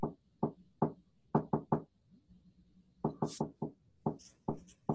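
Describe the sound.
Knuckles knock an SOS on the wooden wall behind a barn: many sharp, hollow raps in clustered groups, some quick runs of three, with faint low rumbling noise in the gaps.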